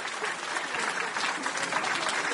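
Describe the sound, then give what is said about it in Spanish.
Steady audience applause, a continuous dense patter of many hands clapping at moderate loudness with no break across the whole stretch. “¡Aplausos! ¡Eso!”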